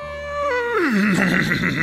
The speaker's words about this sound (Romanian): Îndată ce murgul simți pe stăpânul său în spatele sale, începu a necheza și a scăpăra din picioare.